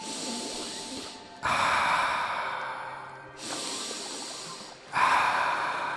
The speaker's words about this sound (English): It's time to take a breath.